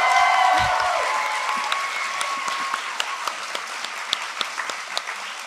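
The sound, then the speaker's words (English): Audience applause at a live show, loud and dense at first, then gradually thinning out until separate claps stand out near the end. “And can we get a hand for all the neuroscientists in the audience?”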